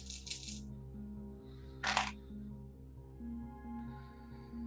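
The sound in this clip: Dice rattle and clatter as they are rolled for a tabletop game, with a quick rattle at the start and a louder, brief tumble midway, both faint over a steady low hum.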